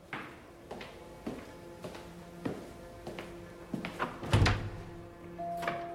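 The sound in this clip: Someone tries a locked door, making dull knocks and thuds at irregular intervals with one heavier thump near the end. The sounds are fairly faint and stand alone.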